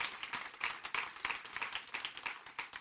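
An audience clapping, with many quick, fairly regular claps forming a faint, steady patter for the whole stretch.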